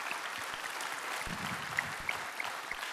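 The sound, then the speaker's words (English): A church audience applauds with dense, continuous clapping at an even, moderate level from start to finish. “So if you are here on site, would you put your hands together and welcome in our online family today.”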